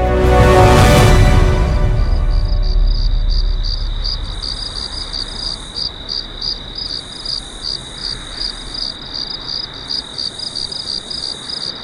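Crickets chirping in a steady, fast pulsing rhythm of high, bright trills that repeat many times. A loud, low rushing sound at the start fades away as the chirping carries on alone.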